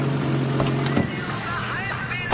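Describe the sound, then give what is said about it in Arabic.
A taxi hums and rumbles steadily as it pulls up after being hailed, with a low engine drone throughout and voice sounds over it. “تاكسي تاكسي، وقف وقف وقف وقف.”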